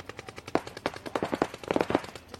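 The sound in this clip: Automatic gunfire in a video game: many sharp shots fired in rapid, uneven bursts, loud and crackling throughout with no voices over it.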